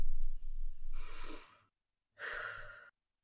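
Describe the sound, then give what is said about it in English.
A deep breath taken to calm down: two breathy rushes of air separated by a short silence, the first longer than the second, with no talk. “You feel that breath I just took? You got to calm yourself down before answering that question.”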